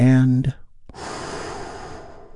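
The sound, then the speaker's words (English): A big, deep breath drawn in slowly and steadily through an open mouth for about a second and a half, just after a brief spoken phrase from the same voice. “Let's take a big, deep, healing breath with me right now.”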